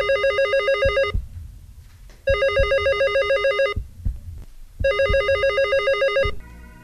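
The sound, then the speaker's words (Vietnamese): A telephone bell ringing in three loud, rapidly trilling bursts, each lasting just over a second, separated by short silent gaps, followed by a brief different tone at the end. “Long cầm điện thoại lên rồi nói: Alo.”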